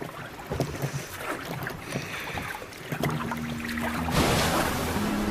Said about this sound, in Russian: Снова берется за весла.